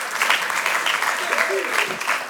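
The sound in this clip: Applause from a church audience welcoming a guest pastor to the stage at an evening service: a dense, steady clatter of many hands throughout, with a voice briefly audible over it.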